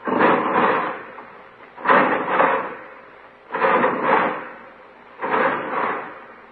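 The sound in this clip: Prison cell bars slide shut on a cell block as four heavy clanking, rumbling bursts, each with a double hit, repeating at regular intervals with silence between them.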